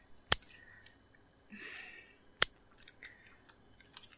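Two sharp, loud locking clicks sound about two seconds apart, each short and bright, with only faint soft noises in between.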